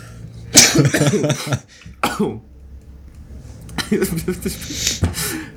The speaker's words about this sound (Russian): Я аж закашлялся.